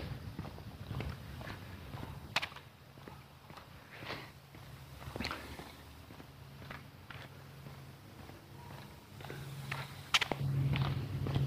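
Footsteps walk along a street in full sun, a quiet, irregular patter of steps with occasional sharper scuffs against faint background noise.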